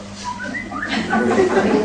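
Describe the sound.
A WhatsApp bird-chirp notification sounds from a phone: a few short, high, tonal chirps, partly under a man talking.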